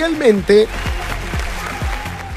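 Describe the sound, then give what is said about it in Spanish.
Audience applause as a dense, steady patter running under a man speaking throughout. “¡Fuerte el aplauso!”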